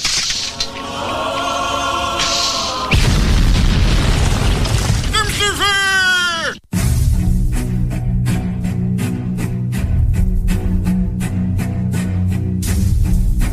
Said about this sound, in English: bring up the holy hand grenade